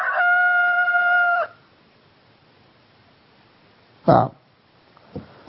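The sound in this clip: A rooster crows once in a long, loud, harmonic-rich call that holds steady before cutting off. Silence follows, then a short loud burst and a few faint knocks.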